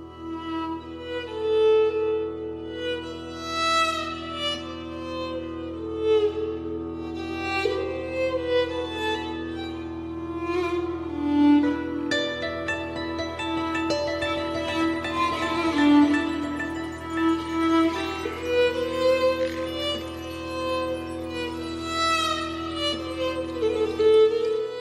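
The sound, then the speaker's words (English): Medieval-style ensemble music from the 2022 video game Pentiment: layered melodic instruments over a steady low drone, played continuously at an even level with no voices. “That is the sound of Pentiment.”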